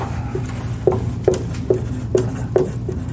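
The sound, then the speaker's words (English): Writing on a board makes a steady, evenly spaced series of short taps and scratchy strokes, moderately loud over a low constant hum. “Another thing I could write up here,”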